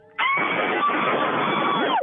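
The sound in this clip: A woman screams into a phone in one loud, sustained, high-pitched cry lasting nearly two seconds. The sound is harsh and distorted, holds steady throughout and then cuts off abruptly.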